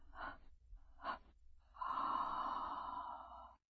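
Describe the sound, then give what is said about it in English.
Gentle breathing during a breathing exercise: two short, quick breaths followed by one long, steady, breathy exhale, alone and soft. “Now, release the technique. Gently inhale and exhale 3 times in quick succession.”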